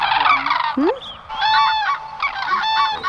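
Common crane calls: a few loud, harmonic trumpeting honks, some bending sharply in pitch, with no other sound.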